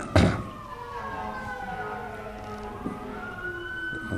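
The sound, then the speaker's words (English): Ambulance siren passing down a street: a fairly faint, sustained electronic wail whose pitch shifts slowly, with a brief thump near the start. “there goes a ambulance down the street.”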